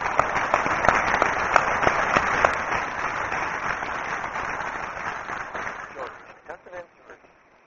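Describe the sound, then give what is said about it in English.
A conference audience applauds a panel of speakers, a dense patter of clapping that holds steady for several seconds and then thins and dies away toward the end. “let's give the panelists a hand and move on to the next.”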